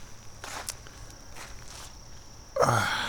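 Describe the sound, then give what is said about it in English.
Footsteps climbing over a picnic table that dams a stream while wading upstream: a few soft, scattered steps, then louder, denser noise near the end. “I'm now going to climb over the picnic table dam and continue my way upstream here.”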